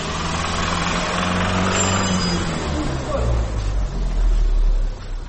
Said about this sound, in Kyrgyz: Бул шаарда 4 жыл мурун ачылган Геркулес деп аталган машина оңдоочу жай. Бул жерде автоунаага тиешелүү баардык кызматтарды көрсөтөт десек болот.